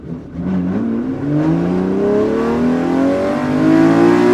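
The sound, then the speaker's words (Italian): A Ferrari 250 GTO engine revs loudly, its rich buzzing tone climbing steadily in pitch throughout and swelling slightly toward the end. “Quinto, Ferrari 250 GTO.”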